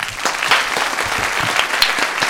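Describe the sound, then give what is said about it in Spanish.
An audience applauds to welcome a guest. The clapping is dense and continuous, holding an even, full loudness throughout with no voices over it. “Un aplauso.”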